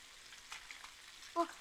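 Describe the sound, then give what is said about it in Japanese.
Karaage fried chicken frying, a faint, steady crackling sizzle that continues throughout, with a brief tonal blip near the end. “美味しそうな音。 先輩、今度はちゃんと唐揚げの食べ頃の音聞き逃さないでくださいね。”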